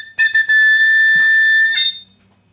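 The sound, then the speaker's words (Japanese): A Tipperary Irish whistle plays a few quick, bright notes, then holds one long, steady high note before ending in a brief flourish. The tone is loud, clear and heard alone. “これはアイルランドホイッスルで、ティッペラリーというアイルランドホイッスルの音でした。”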